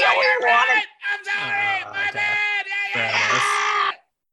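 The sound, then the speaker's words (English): An audience member whoops and yells wildly, one loud voice cheering in a few sustained bursts with short breaks, then cutting off. “Yeah, audience member from the 80s is going nuts.”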